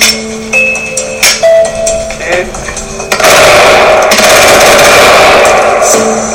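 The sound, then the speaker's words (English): Rapid automatic gunfire from a firearm: a dense, loud, continuous burst of shots runs through the second half, following a quieter stretch with scattered knocks and brief sounds. “How many bullets was that? We shot about 10 before, so that's probably about 40 rounds.”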